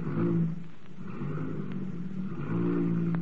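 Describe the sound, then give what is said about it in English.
A freshly repaired car's motor runs with a steady low rumble, swelling slightly a couple of times as it revs; no voices are heard. “I'll just step inside here and see how the motor sounds.”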